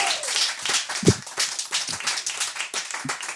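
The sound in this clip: Audience clapping and applause for a departing guest at a Valentine's Day speed-dating stage show: dense, irregular claps throughout, with a few louder individual claps standing out.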